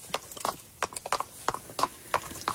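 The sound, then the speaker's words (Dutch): Horses' hooves clop in a quick, uneven run of sharp hits, many steps close together, clear and moderately loud with no talk. “Het hoefgetrappel van paarden.”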